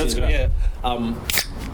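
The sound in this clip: A can of beer is cracked open with one short, sharp snap and hiss that sprays its contents, heard amid people talking.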